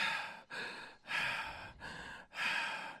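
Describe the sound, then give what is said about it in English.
A person imitates heavy, creepy breathing, with about five loud, raspy breaths alternating in and out in a slow, even rhythm, each separated by a brief gap. “Literally, eyes wide open, and he just stares at us and just breathes.”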